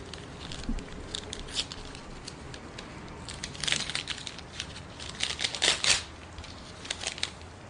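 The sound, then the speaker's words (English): Paper envelope, found tucked on a car windshield, handled and torn open: faint, scattered crinkling and crackly rustles in irregular bursts, with a few sharper crackles near the middle and end. “What's that on my windshield? An envelope.”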